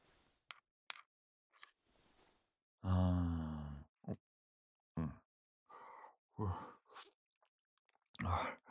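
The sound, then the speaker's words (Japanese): Soft mouth sounds of someone eating rice porridge: a few quiet chewing and slurping noises, broken up by a drawn-out voiced murmur and a few short breaths. “はい、おとなしくおかゆ食べます。”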